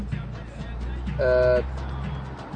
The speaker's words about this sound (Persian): یه ماشین داره به اونا نزدیک بشه.